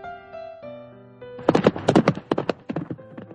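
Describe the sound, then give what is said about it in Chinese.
A tall horse runs, its hooves clip-clopping in a quick, uneven run of sharp knocks that follows a short melodic musical phrase and then trails off slightly toward the end. “一匹高头大马远远的跑过来了。”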